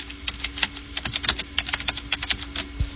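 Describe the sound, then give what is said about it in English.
Typing on a computer keyboard, entering a program name: many quick, crisp key clicks in an uneven rhythm, moderately loud, with a faint steady hum beneath and no talking. “Now, you most likely don't want that, so we'll type SoundForge in here.”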